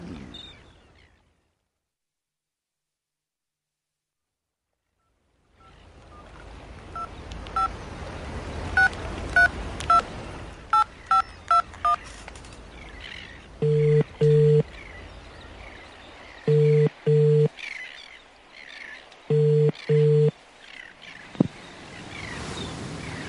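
A telephone number is dialed early in the morning to a police sergeant, with a quick run of keypad beeps after a quiet start. Three longer ringing tones follow on the line.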